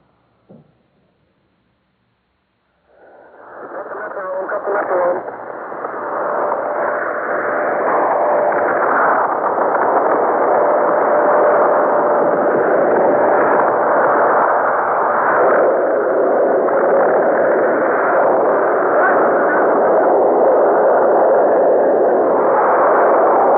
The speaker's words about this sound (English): We now bring you the recording of the bomb's blast at Bikini.